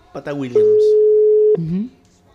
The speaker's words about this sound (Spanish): la estamos llamando en este momento. En vivo.